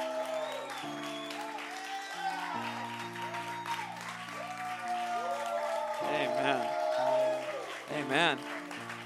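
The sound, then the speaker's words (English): An audience applauds as a speaker is welcomed to the stage, continuous clapping over sustained musical chords that swells slightly toward the end. “Will you put your hands together and welcome my mother to the stage, Prophet Deborah.”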